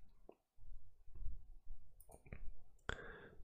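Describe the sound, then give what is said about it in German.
Quiet computer mouse clicks on a download button in an online design tool: a few sharp, soft ticks spaced unevenly over a faint low rumble. “Also wenn ihr soweit fertig seid, drückt ihr hier auf den Download-Button.”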